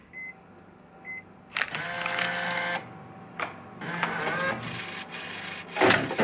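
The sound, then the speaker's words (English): A vending machine dispensing two items: several short bursts of mechanical whirring and clunking, separated by brief pauses and ending in a sharper knock. “Don't you love it when the vending machine gives you two for the price of one?”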